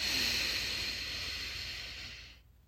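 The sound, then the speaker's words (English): A deep, calming breath drawn in: a steady, airy hiss that holds for a little over two seconds and then fades out, with no other sound. “you take a deep, calming breath, enjoying the serenity of the moment. Inhale.”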